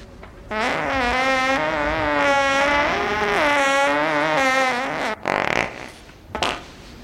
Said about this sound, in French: Tu viens de péter là? Ok, j'ai pété, oui, soyons honnêtes, c'est vrai.